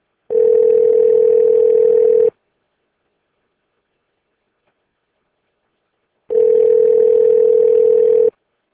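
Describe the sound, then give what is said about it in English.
A telephone ringing out, heard as two long, steady, low-pitched ringback tones of about two seconds each, separated by a few seconds of silence, with no talk. “hang on, and I'll dial the first number.”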